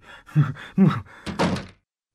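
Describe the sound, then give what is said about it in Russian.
A door is opened with a few solid clunks and knocks of the latch and wood, then a longer rattling thud as it swings, and then silence. “Зачем же вы открыли дверь? Я вас просил не открывать.”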